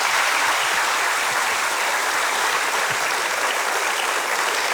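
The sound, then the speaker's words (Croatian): Applause rises from an audience in tribute to the late Darko, a dense, steady clapping that stays even and loud throughout with no voices rising above it. “Pa evo jedan pljesak, evo i za njega.”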